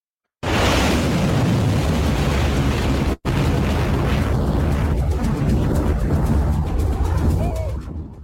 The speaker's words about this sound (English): So this is a barrage this week of predominantly Khyber Shaykan. You can see them there, solid fuel, quick to launch